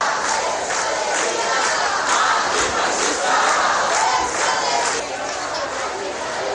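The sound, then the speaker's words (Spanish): Crowd of mostly young demonstrators chanting slogans at a street demonstration, a loud, continuous mass of voices with rhythmic shouted pulses running through the whole stretch. “Este era sonido ambiente de esa manifestación”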